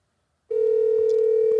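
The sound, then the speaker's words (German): A telephone ringing with an incoming call in a hotel room: after a brief silence, a single steady electronic tone starts abruptly and holds at an even, fairly loud level to the end. “Ich bekomme hier gerade einen Anruf. Oh, das hört sich aber international an.”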